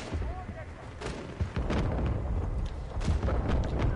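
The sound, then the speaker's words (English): A grenade explosion in a video game firefight, heard as a dense run of heavy booms and sharp cracks of gunfire with no break. “Or throw a nade like that. There you go. Checking it. There you go. Nade and you just got killed from a nade.”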